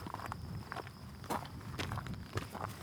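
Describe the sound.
Footsteps walking along a trail near the Oregon Trail: a few soft, irregular treads crunching over the ground, faint against a steady low background, with no talk.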